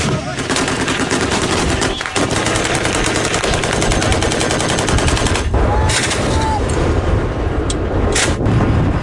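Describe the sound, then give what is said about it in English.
Loud, sustained bursts of rapid machine-gun fire from Saudi-backed Yemeni government forces shooting at Houthi fighters, a dense rattling barrage with some heavier shots. “Video footage released by Yemeni government forces backed by Saudi Arabia of them firing at Iran-aligned Houthi fighters in the country verified by The Guardian.”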